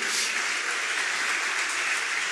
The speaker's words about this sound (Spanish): aplaudan al Señor.